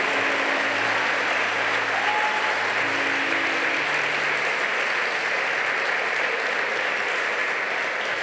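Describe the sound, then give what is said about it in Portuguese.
Congregation applauding during a church service in praise of God, a steady, dense roar of many hands clapping that stays even and unbroken for about eight seconds. “Se você entende, aplauda o Todo-Poderoso, em nome de Jesus.”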